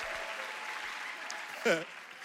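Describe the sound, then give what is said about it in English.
Audience cheering and applauding at a lively talk event, a steady wash of clapping and crowd noise with a short shout rising above it near the end. “We have friends joining us all the way from Jamaica, Nigeria, and Puerto Rico. Come on, y'all make some noise.”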